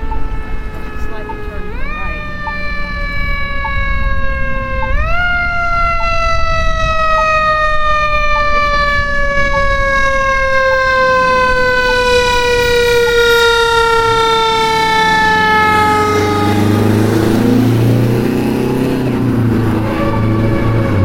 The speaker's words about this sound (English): Oh, a nice siren.